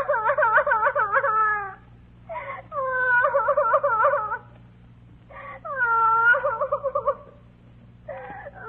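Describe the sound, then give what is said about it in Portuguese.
A child cries at night beneath an almond tree on an unlit street: a few long, wavering, high wails with strong harmonics, separated by short pauses, over a steady low hum. “Iam eles andando, quando ao passar por baixo de uma amendoeira, ouviram bem perto um choro de criança.”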